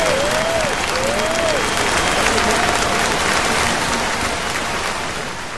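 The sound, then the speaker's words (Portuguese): Audience applause greets a guest on a live contest show, steady dense clapping with a few high sliding whoops that rise and fall above it. The clapping slowly fades near the end. “Aplausos pra Alecrim, galera!”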